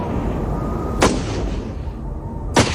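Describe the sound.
Two sharp gunshots crack out about a second and a half apart over a steady low rumble, during an armed clash between Russian and Lithuanian police near a train.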